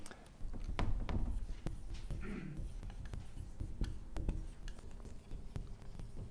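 Handwriting scratches along during a Bible lesson, with a faint, steady scraping texture broken by light taps and strokes.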